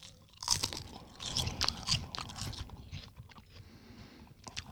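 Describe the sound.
Crunching and chewing on a thin, crispy Tao Kae Noi seaweed snack from Thailand: many quick, brittle crackles and bites, fairly faint, with no talking.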